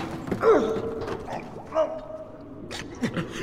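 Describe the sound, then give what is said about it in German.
A door creaks as it is opened, giving a few short, faint squealing creaks with some scraping in between. “Vorsicht, die Tür!”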